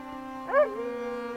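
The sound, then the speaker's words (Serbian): A dog howls in one brief, rising tonal wail over a steady humming drone. The cry swells loudly for a moment, then sinks back into the hum. “Trgnu smo se kad je siroti Toma počeo da zavija na sav glas”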